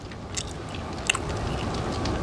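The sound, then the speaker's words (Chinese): Someone eats tsampa, chewing and biting with soft crunches that rise briefly above a faint, steady background. “你吃太多了，不要吃了。”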